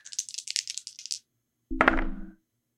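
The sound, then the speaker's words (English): Dice being rolled for a tabletop role-playing game, red dice: a quick rattle of many small clicks for about a second, then after a pause a brief, louder clattering roll with a resonant ring. “You got a 9 on the dice.”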